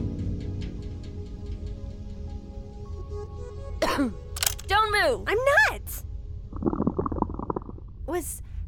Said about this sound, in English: Was that your stomach?